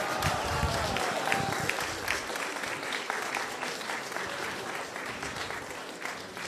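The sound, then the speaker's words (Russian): An audience applauds in farewell to Srila Govinda Maharaj, many hands clapping in a sustained, dense patter that holds strong and eases slightly toward the end. “Поэтому мы поприветствуем, попрощаемся с Шрилой Говиндой Махараджем, я не знаю, похлопаем ему, да, в первую очередь.”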